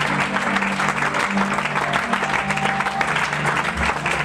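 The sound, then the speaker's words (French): A church audience applauding during worship: dense, steady clapping fills the whole stretch, with a sustained low humming tone running beneath it. “Donne-moi une acclamation ressuscitée, s'il te plaît.”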